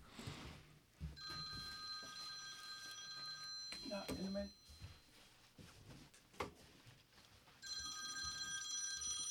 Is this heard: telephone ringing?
yes